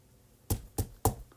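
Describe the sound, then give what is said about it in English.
Three knocks on an iPad come as hard, dull taps at an even pace, fairly faint against a quiet background. “knocking on the iPad”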